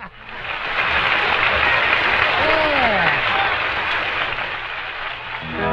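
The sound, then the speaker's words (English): Audience applause fills the Grand Ole Opry as a performer is welcomed on stage, a loud, steady wash of many hands clapping that holds throughout and eases slightly near the end. “Let's bring him out, give him a great big welcome, Cousin Jody!”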